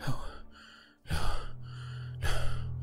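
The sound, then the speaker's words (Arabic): A man pants hard while he keeps working, catching his breath in three loud, ragged bursts of gasping breaths with brief pauses between them. “بكر يواصل العمل وهو يلهث، يبدو أن قلبه في حالة ممتازة. قال وهو يلهث ويسترد أنفاسه”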